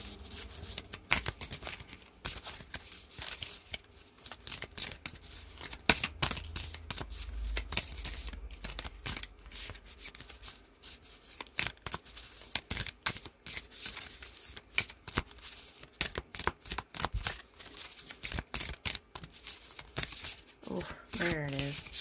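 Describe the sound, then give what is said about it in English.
A tarot card deck is opened and shuffled, giving a long stretch of soft papery riffling, slapping and rustling with irregular bursts of quick card flicks. “Let me open this deck here. Pardon the noise.”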